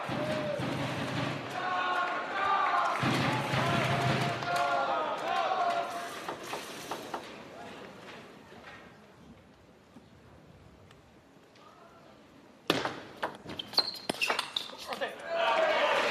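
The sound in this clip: Table tennis ball bouncing and being struck during a match rally, heard as many sharp, light clicks in quick irregular succession, with commentary voices talking over much of it.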